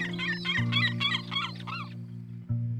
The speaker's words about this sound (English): She proudly lifts her voice to sound her mating call, and soon a mate responds by singing,